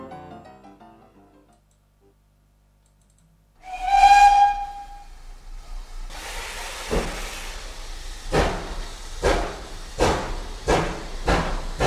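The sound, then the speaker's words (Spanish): A coal-fired steam locomotive gives one loud whistle blast with hissing steam as it departs, then starts chuffing in strong, regular puffs that come faster and faster after a short quiet stretch. “vamos a subir al tren que va a evitar su salida. Está Wilson ya a los mandos de ese tren echando carbón y ese no espera.”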